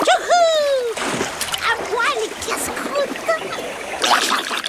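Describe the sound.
A piranha dropped back into river water makes a short, wet splash and splatter, set among other busy, bright sounds.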